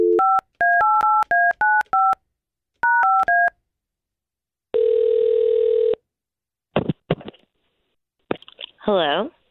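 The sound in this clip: Touch-tone telephone dialing: two rapid runs of paired-tone keypad beeps, then a long steady ring tone, followed by brief clicks and crackling noise on the line.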